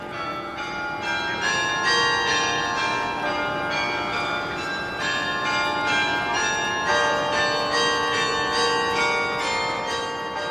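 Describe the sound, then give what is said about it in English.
Carillon bells at the University of California ring a continuous run of bright, overlapping metallic tones, many notes struck in quick succession with long shimmering sustain and no voices. “I'm the University Carillonist at the University of California. I mean, don't confuse a bell tower with a carillon.”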